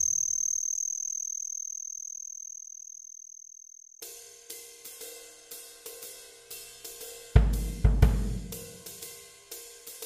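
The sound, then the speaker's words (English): Insects call on a Midwest summer evening: a steady, high-pitched trill holds alone at first, then gives way to a regular series of pulsed chirps, broken by a brief low rumble near the end. “Let's turn our attention to the cool sounds that some insects can make.”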